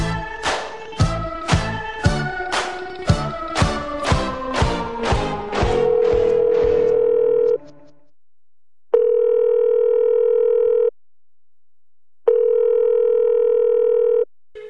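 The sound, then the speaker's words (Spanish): Telephone tones while a call is being placed: a rapid string of short dialing beeps, then a long steady tone, then two long ringing tones with silent gaps between them. “Estamos llamando a ver si contactamos ya con la siguiente víctima.”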